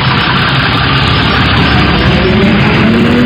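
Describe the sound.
A city bus engine runs as passengers board. It holds a loud, steady, low idling rumble with a gritty texture for the whole stretch, with no pause or clear change.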